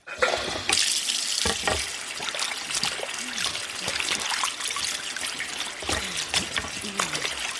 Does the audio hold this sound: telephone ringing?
no